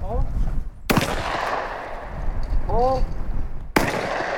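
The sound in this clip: Two sharp, loud shotgun blasts ring out as students in bright orange vests shoot at clay targets on an open field at a fish and game club, with people talking between and over the shots.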